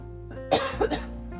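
Two short, quiet coughs come close together from someone with a tickle in the throat, each a brief rough burst over a faint steady hum, with no speech.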